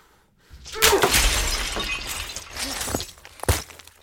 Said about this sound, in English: The shards Junie shattered rise again, surrounding Xander this time.